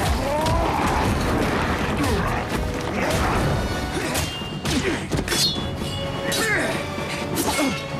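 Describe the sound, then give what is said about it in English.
Heavy, forceful punches land in a fist fight between two muscle-bound brutes in a film scene: dense crashing thuds and smacks that pile up continuously and loudly over eight seconds. “Nemo watches as the two muscle-bound freaks run at each other and slug it out, exchanging punches of terrifying force.”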